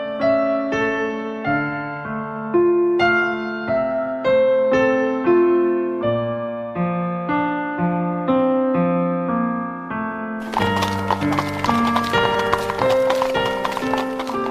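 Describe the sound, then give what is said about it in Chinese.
Horse hooves clip-clopping as a horse-drawn carriage arrives at an estate, a rhythmic patter heard with melodic music that turns fuller and busier near the end. “过了2天之后，一个年轻人驾着一辆马车来到了庄园里。”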